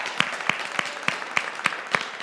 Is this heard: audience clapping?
yes